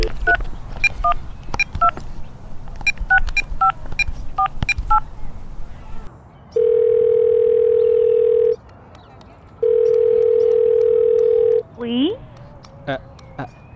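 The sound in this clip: An outgoing telephone call: a rapid series of touch-tone keypad beeps, then two long steady ringback tones separated by a pause, followed by a short rising electronic sweep and a few clicks.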